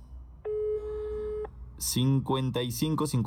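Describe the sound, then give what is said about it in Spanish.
A telephone ringback tone on an unanswered call: one steady, mid-pitched beep lasting about a second, then a pause before a voice starts talking. “Sí suena, pero no nos contesta Keila.”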